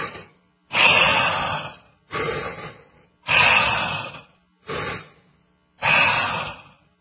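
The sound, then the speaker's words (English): Deep breathing: a series of loud, rough, airy breaths in a slow, steady rhythm. Each lasts about a second, separated by short silences, with no talking. “I'm going to breathe.”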